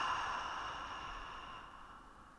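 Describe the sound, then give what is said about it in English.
A slow exhale through the mouth during a guided relaxed-breathing exercise: a soft, faint, airy hiss that gradually fades over about two seconds. “And when you're ready, keeping your shoulders relaxed, exhale through your mouth.”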